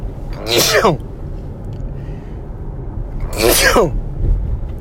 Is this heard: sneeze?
yes